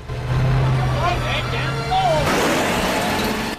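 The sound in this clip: A car engine drones as terrified men drive off in a hurry, the low hum changing partway through, with voices heard over it.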